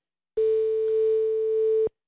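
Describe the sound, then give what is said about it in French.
Ringing tone on an outgoing telephone call, a single steady mid-low tone that holds level for about a second and a half, then stops cleanly, with nothing else heard. “Ça y est, ça sonne.”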